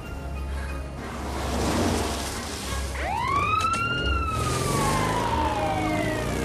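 Loud wailing siren from a police motorbike speeding past stationary traffic, rising sharply about halfway through and then sweeping slowly down in pitch over a steady traffic rumble.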